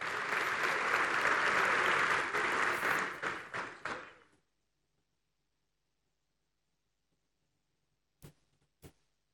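An audience applauds at an award ceremony: dense, loud clapping for about four seconds that thins into scattered claps and stops, then silence broken by two isolated late claps.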